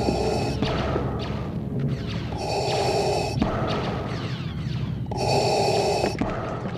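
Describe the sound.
Breathing through a scuba tank regulator, pitched down into a deep, mechanical loop: slow hissing inhales and exhales alternate in a steady rhythm, with three loud, harsh airy phases standing out.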